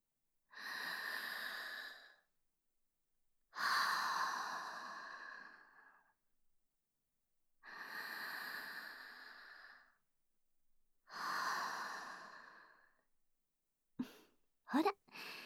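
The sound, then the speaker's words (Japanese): Slow, deep breathing: four long, airy breaths, each about two seconds with pauses between, followed by a few faint short clicks at the end. “一旦落ち着こっか。それじゃあ、深呼吸。”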